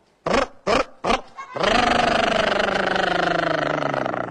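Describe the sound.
A car engine running on soybean oil starts after being pushed: three short, loud sputters, then it catches and settles into a steady, loud droning run.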